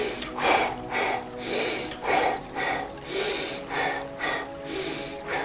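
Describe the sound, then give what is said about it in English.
Rhythmic breathing in a guided breath practice, with a single inhale through the nose and a double exhale through the mouth. Many soft, airy breath sounds repeat at a steady pace with no talking. “we'll inhale nose. Exhale mouth this time. It's gonna be a single inhale, double exhale.”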